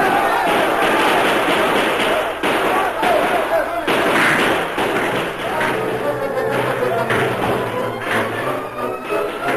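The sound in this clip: Rifle gunfire erupts as defenders at a mine open fire on a charging column of outlaws. Loud, dense volleys of shots and heavy thuds run almost without a break for the whole stretch.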